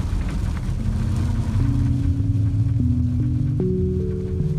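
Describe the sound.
A car drives home along a snowy road, its low engine drone steady and loud throughout, the hum stepping up in pitch several times as it gathers speed.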